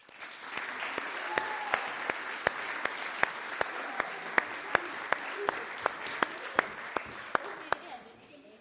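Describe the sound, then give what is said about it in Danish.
Applause from an audience at a Danish scouts' ceremony after the children have received their badge steps, a steady dense clapping with many sharper individual claps standing out, lasting throughout and tapering off at the end. “Det var hele flokken. Giv dem en stor hånd.”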